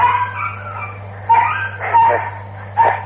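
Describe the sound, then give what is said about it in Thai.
Dogs fighting in front of a house give a few sharp barks and yelping, whining cries in separate outbursts over a steady low hum. “สุนัขมันกัดกันหน้าบ้านสนุกไปเลย”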